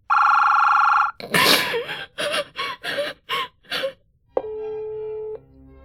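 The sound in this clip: A telephone ringing: a steady electronic buzzing ring at the start, then a run of short gasping, sobbing breaths, then a second, lower steady electronic tone.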